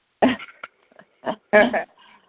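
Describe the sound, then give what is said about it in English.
Harsh hacking coughs from someone whose coffee went down the wrong way: several short rough bursts, the last two run close together, with quiet gaps between them. “hacking and coughing. It tickled me. Maybe I just drank my coffee down the wrong tube, maybe.”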